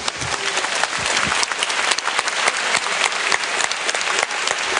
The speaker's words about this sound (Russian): А здесь похлопаем тоже друг другу.